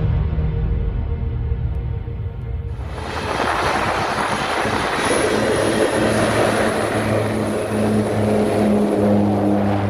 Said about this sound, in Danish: Det vi lige har hørt her, det er lyden af et vandfly.